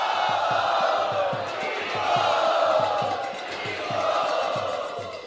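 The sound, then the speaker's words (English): An audience shouts a warm welcome to first-time visitors, the crowd roaring in unison in three loud swells over a steady rhythmic pulse. “let's give them a real warm welcome, three times the way we do here. Hut!”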